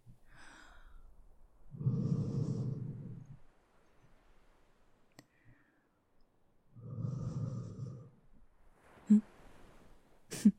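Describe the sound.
Two long, deep breaths from someone being fanned and cooled down with hands on head, each a loud, rough, low rush of air separated by quiet, followed by a few brief, fainter breathy sounds.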